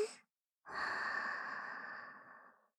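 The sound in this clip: A person breathing in slowly: a short breath, a pause, then one long, steady, airy inhalation of about two seconds that gradually fades, with no talk over it.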